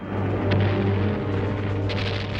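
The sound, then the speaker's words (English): Wartime aircraft bombing a convoy of fleeing civilians: a heavy, continuous low rumble and engine drone, loud throughout, with brief sharper bursts of explosion noise rising above it. “Planes bomb a convoy of fleeing civilians.”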